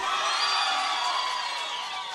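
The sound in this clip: An audience at a live show cheers for a contestant, a dense, bright roar of shouting voices that holds steady and fills the short moment before easing slightly at the end.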